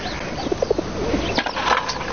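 A pigeon that had been ill and was treated gives a few soft, low, rounded coos over a steady, noisy background.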